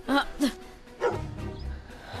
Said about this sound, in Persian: بیا اینجا سگ احمق. آروم بگیر.